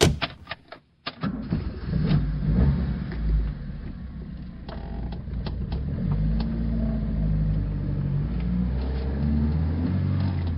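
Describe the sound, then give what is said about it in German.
A car driving, with a steady low engine rumble that runs almost the whole clip after a brief dip near the start, and no clear talk over it. “Ich fahre euch jetzt zum Stadtpark.”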